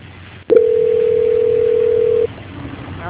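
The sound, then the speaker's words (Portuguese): A telephone line tone plays during a call transfer: one steady, mid-pitched tone about two seconds long that begins with a click, over a low background hiss, then stops abruptly. “Só ficar na linha que eu vou estar transferindo a ligação, não desliga, tá?”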